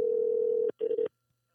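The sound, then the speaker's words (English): Telephone dial tone on a regular phone line as a call is placed: a steady, mid-pitched continuous tone that cuts off abruptly, then resumes as a shorter, broken burst before stopping. “I'm calling you with my regular number.”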